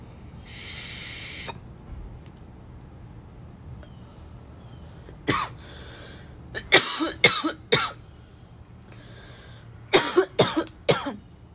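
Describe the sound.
A hit of smoke is taken with a short, loud, hissing draw, then after a pause comes a run of harsh coughs in two bursts, each a few sharp, quick hacks close together.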